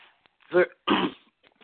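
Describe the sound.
A preacher at a prayer service clears their throat mid-sermon in two rough, raspy bursts, the second one slightly longer, with quiet between and after.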